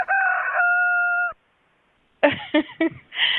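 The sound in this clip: A rooster crows in one long, loud, sustained call, followed by silence and then a few short clucking calls, from birds kept in a hotel room.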